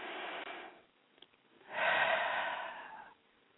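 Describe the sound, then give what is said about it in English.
Deep breathing during a guided relaxation exercise: two long, slow, airy breaths, the second fuller and longer, separated by a quiet pause with faint small sounds. “Okay, so let's take more deep breaths.”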